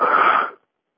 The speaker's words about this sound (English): And breathe out forcefully to stabilize it within yourself until the energy goes back down from the hollow tube into the base of the spine. Breathe out from the spiritual eye and then goes out.